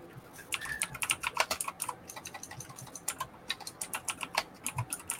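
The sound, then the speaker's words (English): Rapid typing on a computer keyboard, many quick sharp clicks in dense bursts with brief pauses, heard alone without talk. “Type in AC Infinity.”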